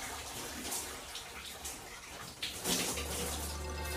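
Water splashing and sloshing in a bathtub as someone bathes: a steady, continuous wash of water noise with a slightly louder surge near the middle, followed by a low, even hum underneath.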